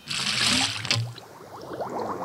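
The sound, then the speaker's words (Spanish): Sound effect of a jet of water gushing out of a pipe: a loud rushing burst for about a second, then fainter bubbling and trickling gurgles. “un chorro de agua sale por la cañería empujando afuera a Anagata y al zorro”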